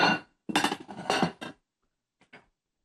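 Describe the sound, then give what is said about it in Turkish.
Clean kitchen dishes being lifted and handled: two bursts of clattering, clinking crockery, followed after a pause by a couple of faint, brief clinks, with no talk. “Şimdi bu kaplarım temiz. Ben şöyle bir kaldırayım.”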